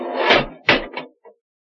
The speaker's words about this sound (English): Doors, Dudley. They're closed.